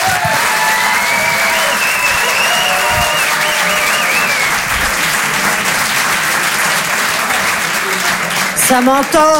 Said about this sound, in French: Je vous demande un maximum de bruit, s'il vous plaît, également pour Antonia de Rendinger.